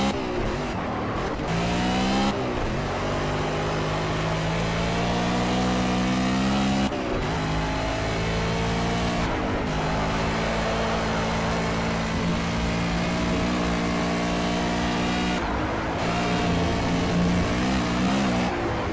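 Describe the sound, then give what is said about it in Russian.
A race car in the Project CARS racing video game, played on a gamepad, scraping a barrier with a rear wheel and spinning out. A loud continuous engine roar climbs in pitch repeatedly, broken by a few abrupt drops. “Меня только что вот и задел задним колесом борт, и меня сразу начало разворачивать.”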